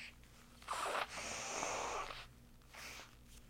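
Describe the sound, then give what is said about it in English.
Someone blows their nose into a Kleenex tissue, making a few quiet, breathy blasts: a short burst, then a longer one of about a second, then a brief final puff. “Jeez, I can blow my own nose. I'm not helpless. Give me that Kleenex.”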